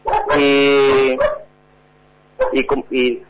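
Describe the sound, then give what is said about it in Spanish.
A dog vocalizing, first a long, drawn-out whining howl, then after a short pause a few quick, sharp barks. “no te preocupes por el perro”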